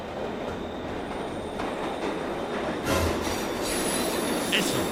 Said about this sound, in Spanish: Escuchó la llegada del tren.